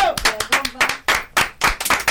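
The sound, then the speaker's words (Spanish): A small crowd claps for a female band member at a live acoustic session, with sharp, uneven hand claps in quick clusters and short gaps, loud and lively, with a voice faintly underneath. “Un aplauso para la compañera.”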